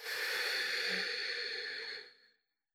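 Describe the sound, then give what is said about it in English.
A single long, slow breath through the nose during a guided relaxation, a steady airy hiss held for about two seconds and then tapering off quietly. “Take a deep, long breath in through your nose and a slow, long breath out through your nose.”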